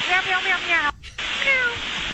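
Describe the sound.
Pilots imitating cats with their voices over an aircraft radio: drawn-out, wavering meows with a thin, narrow radio tone, in two bursts split by a short break.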